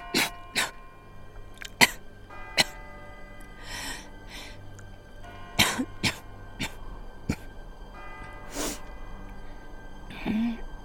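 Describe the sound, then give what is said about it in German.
A person coughs again and again, with many short, sharp bursts scattered across a quiet background, some harsh and some breathier. “Du hustest ziemlich viel.”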